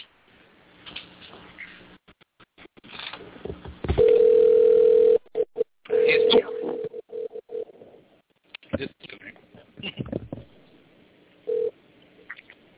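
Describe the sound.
A telephone dial tone sounds while a dropped call is being reconnected: a steady mid-pitched hum comes in a few separate bursts, broken by clicks, line noise and brief dropouts.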